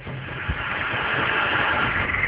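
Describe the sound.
A CNG auto-rickshaw engine idles after stopping, giving a steady low rumble with a brief thump near the start and no talk over it.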